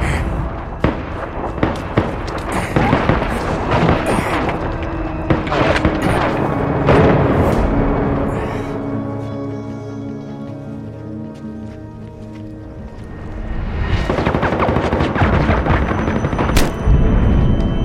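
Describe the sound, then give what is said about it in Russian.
Gunfire in a film scene: many sharp, cracking shots in a dense, irregular barrage that eases into a quieter stretch with a low, sustained tone, then the shots return toward the end. “Всплывают фрагменты жизни, стрельба, побег Мака.”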